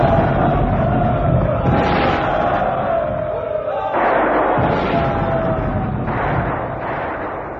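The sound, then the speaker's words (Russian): Artillery fire pounding insurgents during an uprising in Kyiv: a few heavy booming blasts at intervals over a dense, unbroken roar and rumble. “И на восставших обрушился жесточайший шквал артиллерийского огня.”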